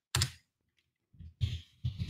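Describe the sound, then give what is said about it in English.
Keys clatter on a computer keyboard while a note is typed, in a few short bursts of faint clicking separated by brief pauses. “Okay. I'm making a note. Hold on, guys. I literally have to write this down.”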